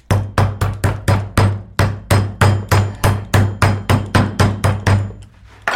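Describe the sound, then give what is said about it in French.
A hammer pounds meat to tenderize it with a fast, steady series of many heavy blows. Each strike is a sharp smack with a low, resonant thump, evenly spaced, with no talking. “Vous avez attendri la viande à grands coups de marteau.”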